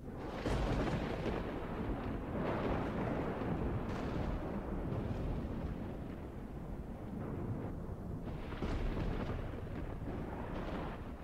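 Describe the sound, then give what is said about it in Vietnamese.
Thunder from a lightning strike that splits a silk-cotton tree: a continuous deep, rolling roar with a few louder surges, fairly quiet throughout, with no voices. “Một tia sét rạch ngang trời, đánh thẳng xuống gốc gạo.”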